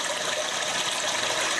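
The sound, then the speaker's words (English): A Japanese toilet privacy device plays a recorded flushing-toilet sound: a steady, continuous rush of gushing water, fairly soft and even throughout, with no voices. “The solution? A device that mimics the sound of an ever-flushing toilet.”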